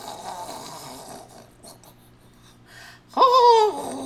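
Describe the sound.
A voice imitates a huge, cartoonish snore: after a few seconds of faint breathy noise comes one loud, wavering voiced snort lasting under a second.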